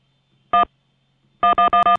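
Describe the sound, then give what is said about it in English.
Telephone keypad tones from one button pressed repeatedly: a single loud beep, a pause of nearly a second, then a rapid run of several identical beeps in quick succession. “I'm just mashing the one button.”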